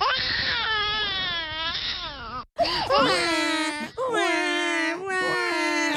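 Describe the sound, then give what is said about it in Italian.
A voice imitating babies crying on a bus: wavering, high wailing sobs, one long wail followed after a brief break by a few shorter cries. “E come fanno i babies on the bus, i neonati sul bus?”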